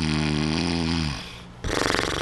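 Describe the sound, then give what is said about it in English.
A person's voice imitates cartoon snoring: a long buzzing, voiced drone on a steady low pitch, a brief near-silent gap, then a rougher, breathy burst of noise. “And I snore like this. This is how I snore.”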